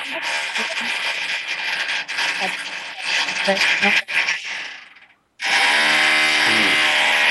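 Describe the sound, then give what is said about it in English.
A power drill runs nearby, a dense grinding whir that surges and stutters, cuts out briefly, then resumes as a steadier tonal whine, while people talk over it. “Sorry, that drilling here. We hear some drilling.”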